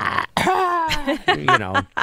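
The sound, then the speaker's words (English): Throat clearing and coughing from a person still recovering from an illness felt in the chest: a few raspy, strongly voiced bursts and hacks in quick succession, loud and alone. “You're like, still coughing a bit. In the mornings, I start like,”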